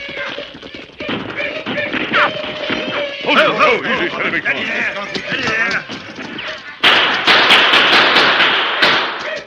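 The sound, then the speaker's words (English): Gunfire crackles through a Western radio drama shootout as men under cover fire on a small band of attacking Apaches. Many sharp, loud bangs cut through a dense, noisy din, with an even harsher burst of cracks near the end. “Three men hurriedly took cover and opened fire as a small group of Apaches came over a rise ahead. For a few moments, the Indians fought them.”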